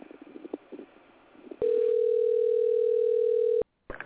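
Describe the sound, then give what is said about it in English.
A telephone dial tone heard while calling a restaurant: a steady, continuous mid-pitched tone held for about two seconds, then cut off abruptly, preceded by faint low sounds. “I'm going to try dialing a restaurant to see if I can get somebody there.”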